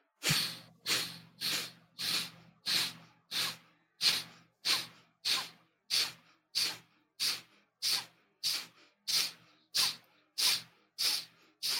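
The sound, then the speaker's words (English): Rapid, forceful breaths from a deep breathing exercise: a long, evenly spaced series of sharp, hissing exhalations at roughly two per second, each a strong airy burst, with no talk. “Okay, so let's do 20 breaths. Ready? Take a deep breath in. Go.”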